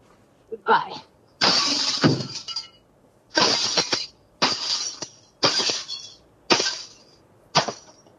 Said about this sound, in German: Ich habe meinen Baseballschläger unter meinem Bett rausgeholt. Jetzt muss es dran glauben.